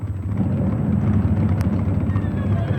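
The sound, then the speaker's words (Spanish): A small airplane rushes past with a steady, loud, low engine roar that stays dense and even throughout. “¡Un avión!”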